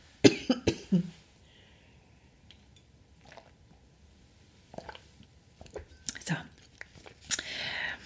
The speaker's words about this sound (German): Ich muss mal eben kurz einen Schluck trinken, Entschuldigung.